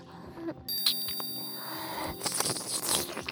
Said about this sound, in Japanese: 催眠ベルを聞くたびに体がビクンと跳ね上がる。